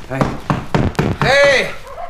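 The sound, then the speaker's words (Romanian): Four firm knocks on a door at a village household arrive in an even rhythm, and a voice calls out right after them while the sound fades. “Cine bate?”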